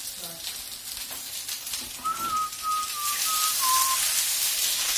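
Food sizzles in an overheated frying pan, a broad hiss that swells louder toward the end, with a thin whistling tone drifting through the middle.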